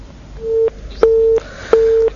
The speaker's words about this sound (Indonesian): sambungan telepon kami dengan penanya terputus